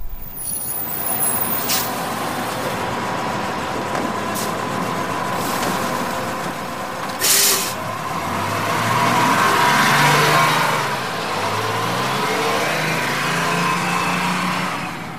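Bus pulling away: sharp air-brake hisses come first, then the engine revs as it accelerates and its low drone climbs in pitch in repeated surges. No voices are heard.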